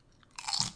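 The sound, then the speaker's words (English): Doritos chips crunch as a mock sound effect for a kick to the neck. A single short, quiet crunching burst rises from near silence, then quickly fades, with no talking over it. “This is the sound I would make if I was, like, kicking him in the neck. It would sound like this.”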